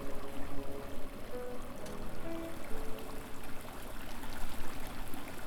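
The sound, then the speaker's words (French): Water flowing up and through separate tanks holding mussels and oysters, a continuous, even rush and trickle with no breaks and a low, fluttering texture throughout. “So I have the mussels and oysters in kind of like a separate um, separate tanks, and I have water that flows up and through.”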